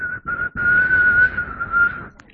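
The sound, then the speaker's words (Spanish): A person whistles on their own: a couple of short clipped notes, then a long, steady, clear tone that wavers slightly in pitch, sustained before fading out. “¿Y qué haces? ¿Comienzas a silbar?”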